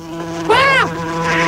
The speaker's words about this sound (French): Les mouches arrivent